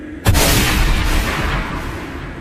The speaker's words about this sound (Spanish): Con un solo disparo de la escopeta de su padre, se aseguró de que los cuatro dejaran este mundo al mismo tiempo.